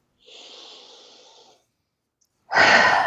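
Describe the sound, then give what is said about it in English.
A person takes a big deep breath during a chest-massage exercise: a soft, airy inhale, a short silent pause, then a loud, rushing exhale like a heavy sigh. “Big, deep breath.”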